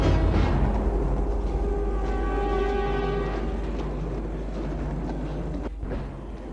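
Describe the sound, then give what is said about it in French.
A train pulls into a railway station in Paris with a steady low rumble. A sustained tonal whine rises over it midway, and the sound eases slightly toward the end. “Il arrive à la gare de Paris.”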